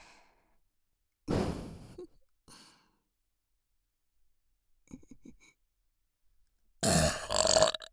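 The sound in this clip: Throaty burps: two long, rough, loud ones, with a short burp and a fainter sound between them, each set apart by silence.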